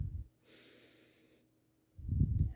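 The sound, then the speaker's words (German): A deep breath drawn in through the nose during a guided breathing exercise: a soft, airy hiss lasting about a second, then after a pause a brief low, breathy rumble, all quiet. “Einatmen,”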